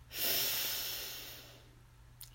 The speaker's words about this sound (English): Breathe in and out.